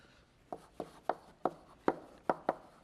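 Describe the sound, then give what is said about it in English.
Writing on a board during a lecture on sorting algorithms: about eight short, crisp strokes in an even rhythm, quiet and clear with no talk over them. “And so let me just write that down.”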